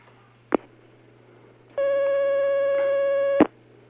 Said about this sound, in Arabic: معنا مكالمة الآن.